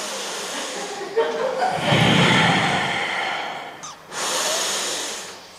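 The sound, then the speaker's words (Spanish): A group of women breathe together in two long, loud, breathy rushes of air, separated by a short pause. “Por favor, vamos a respirar aquí todas juntas.”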